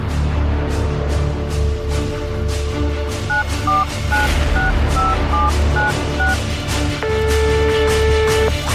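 A telephone number dialed on a touch-tone phone: a series of short beeps, then a longer sustained tone, all over a loud, steady, pulsing background.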